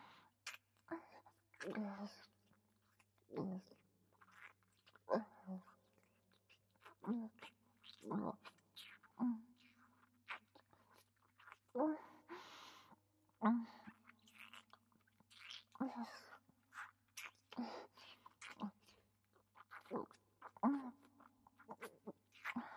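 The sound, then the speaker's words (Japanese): Wet tongue-kissing sounds in a saint-themed roleplay: many soft, irregular lip smacks and slurps repeat throughout, fairly quiet and mixed with whispering. “舌を使ったやらしいキス、たくさんさせていただきます。”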